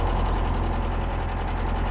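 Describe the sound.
Tractor engine running in a steady, low, rhythmic chugging rumble that stays loud and even throughout, with no voices over it.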